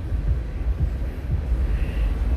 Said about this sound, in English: And now the train is coming. I'm just listening to the sounds of nature.